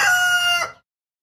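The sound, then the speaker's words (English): A rooster's morning crow, loud and high-pitched, held steady for under a second before cutting off abruptly into silence. “you just hit us with the morning rooster there.”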